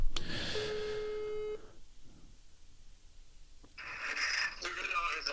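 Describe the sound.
Telephone tone as a call is placed to a guest: a steady single-pitched tone lasts about a second, followed by quiet line noise and then louder hissy, crackling sound.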